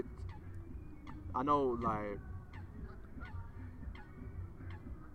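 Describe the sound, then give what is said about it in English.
Honking bird calls, two short nasal, goose-like honks in quick succession near the middle, stand out over a quiet background with faint scattered ticks. “Are the birds talking for you, yeah? Yeah, I'm the bird whisperer.”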